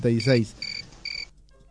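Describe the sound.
A cricket chirps twice, each a short, bright, high-pitched trill with a clear tonal ring, following a brief voice at the start and fading into quiet afterward.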